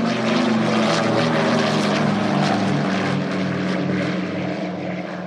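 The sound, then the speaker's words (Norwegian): A Douglas DC-3 propeller airliner from around 1950 roars continuously, a loud, dense engine drone with a steady pulsing texture throughout. “rundt 1950 kjøpte det nystartede Ethiopian Airlines tre DC-3-ere, og de hørtes slik ut.”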